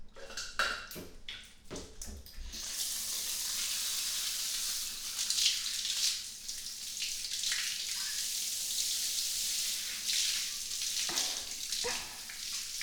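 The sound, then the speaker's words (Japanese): Water poured to rinse a person's back while bathing: a few brief knocks at the start, then a steady hissing, splashing stream that runs almost the whole time, with no talk. “お背中流しますね。”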